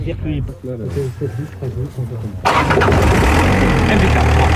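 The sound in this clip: An engine cranks and catches after a few seconds of talk, then settles into a steady, loud idle with a rough low rumble as the voice continues over it.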